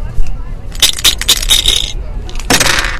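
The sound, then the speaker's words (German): Dice clatter and rattle as they are thrown in a gambling dice game played for coin stakes. A few sharp clicks come in quick succession, then a louder, longer rattle near the end. “lass uns noch eine Runde knöcheln, den Satz um 5 Gulden. Mit einer Runde soll's genug sein. Also, komm, her mit den Würfeln.”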